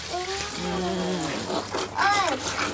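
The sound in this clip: Pig feed being poured into a feeding trough, a steady rushing pour heard beneath several voices talking over it.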